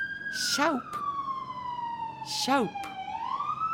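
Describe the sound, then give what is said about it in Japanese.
An ambulance siren passes in front of a house, its wailing tone sliding slowly downward in pitch before rising again at the end, with brief louder bursts breaking in twice. “家の前を救急車が通ってますね。さようなら救急車。”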